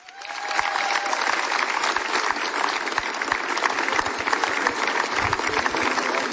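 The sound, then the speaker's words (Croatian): A festival audience applauds a performer with a thick, loud, continuous burst of clapping that rises quickly at the start and then stays steady, with no voices standing out. “i sad kako smo vježbili aplauzi, tako ćemo i nastaviti”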